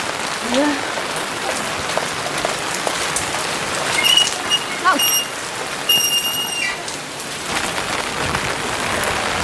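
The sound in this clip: Rain falling steadily on surfaces, an even hiss of many small drops that stays at a constant moderate level throughout.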